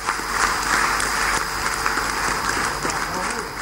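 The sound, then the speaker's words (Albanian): Stormy applause fills the Kosovo parliament in extraordinary session as the declaration of independence is greeted: sustained, dense clapping from many members, heard under a talking voice throughout. “para një parlamenti të mbledhur në seancë të jashtëzakonshme që duartrokiti i stuhishëm duke përshëndetur lindjen e shtetit të ri.”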